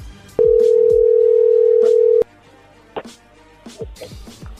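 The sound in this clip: A telephone gives one long, steady tone lasting about two seconds on an incoming call, then cuts off abruptly. Quieter, irregular sounds follow.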